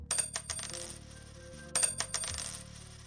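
Small copper coins drop into an offering box, giving a few bright metallic clinks with a light ringing jingle, sharper strikes near the start and again past the middle.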